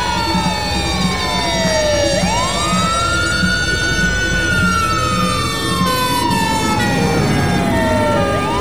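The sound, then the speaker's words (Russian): Several fire engine sirens wail together as fire trucks arrive at a smoking apartment building. Their loud, overlapping tones sweep up and down in pitch continuously over a steady background roar. “К дядиному жилищу съезжались пожарные машины.”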